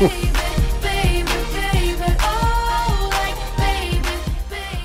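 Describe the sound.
An upbeat pop song plays at normal speed, with a steady punchy beat of regular drum hits under bright layered instruments and a melodic line, at a constant, lively level.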